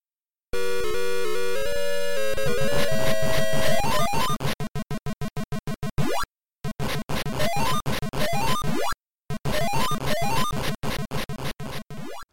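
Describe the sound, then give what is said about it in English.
Electronic sounds from the 1981 Universal arcade game Ladybug: a sustained buzzy tone, then rapid repeated beeps and pulsing chiptune patterns, in three loud bursts separated by brief silences, each ending in a rising sweep. “the game is Ladybug by Universal 1981, and it sounds a bit like this”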